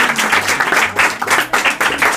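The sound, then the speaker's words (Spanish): Applause for the poet Romeo Murga: a burst of loud hand clapping from a group, surging and dipping in uneven pulses for a couple of seconds. “Un aplauso para Romeo Murga, por favor.”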